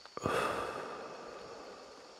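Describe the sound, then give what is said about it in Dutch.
A deep out-breath puffed through the mouth during a guided breathing exercise: a brief click, then one strong breathy gust that fades gradually over about two seconds. “En dan puffen we even uit met onze adem. Adem in. En uit.”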